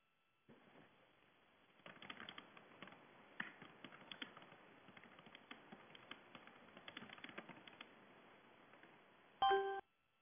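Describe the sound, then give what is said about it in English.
Rapid typing on a computer keyboard as a short message is written: many quick irregular key clicks in clustered bursts for about eight seconds, then a brief bright electronic chime at the end. “I'm going to type a real quick message about the call-in number for this person.”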